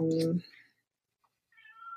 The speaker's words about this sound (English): I'm sorry, that's my cat editing.